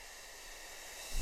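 A soft exhaled breath shaped into a gentle 'f' during a breathing exercise, heard as a faint, steady hiss that holds evenly for about a second with no voice.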